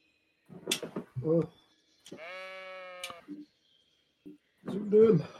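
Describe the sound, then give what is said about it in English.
A sheep in farming country gives a single drawn-out bleat, a wavering, buzzy call about a second long. Bursts of human talk come before and after it. “There are quite a number of sheep in this area. Never seen so many sheep. Farming town for sure.”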